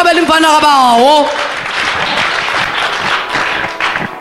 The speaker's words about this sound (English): Come and clap for the Lamb of God.